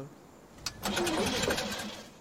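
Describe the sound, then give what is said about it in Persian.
A car engine starting on a car with a suspected alternator fault: a brief sharp click, then the engine catches and runs with a steady, loud roar to the end. “حالا استارت بزن”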